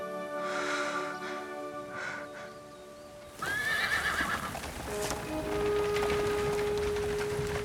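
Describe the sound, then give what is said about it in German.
Horses neigh as a black carriage drawn by two dark-spotted horses rushes in. A shrill whinny rings out, then clattering hoofbeats and snorts continue loudly to the end. “Nanu, wer prescht denn da heran, wie vom Teufel gejagt? Eine schwarze Kutsche mit zwei dunkel gefleckten Rössern.”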